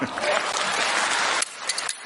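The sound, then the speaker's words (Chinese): An audience applauds a stage performer with dense, continuous clapping that thins into a few scattered claps near the end. “鼓掌的全都发大财，幸福好运滚滚来，掌声响起来。”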